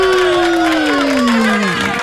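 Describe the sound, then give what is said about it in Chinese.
Audience cheers and applause for a Christian radio station, led by a long sustained shout that slides steadily downward in pitch over a bed of crowd noise and clapping. “这个时候安妮先邀请大家举起自己的双手，我们一起来给我们的阿爸天父还有佳音电台一个掌声”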